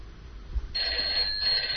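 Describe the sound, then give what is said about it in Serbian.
A telephone rings with an incoming call: a bright, steady electronic ring tone starts after a short stretch of low background noise and holds to the end, with no talk. “Imamo nekoga na vezi. Na telefonske vezi je Matej Jovanović.”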